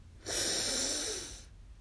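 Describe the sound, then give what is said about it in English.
A single deep breath is drawn in through the nose: a soft, airy hiss that rises quickly, holds for about a second, then tapers off. “we're going to take a deep breath in through our nose and we'll exhale through our mouth”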